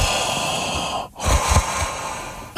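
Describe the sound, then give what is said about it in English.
A voice imitates heavy, mechanical, mask-like breathing: a long, rasping, hissy breath, then a brief silent pause, then another breath with a throaty rumble. There is no talking. “She sounded like Darth Vader. All right. I mean, like straight up Vader. I mean, it was just like,”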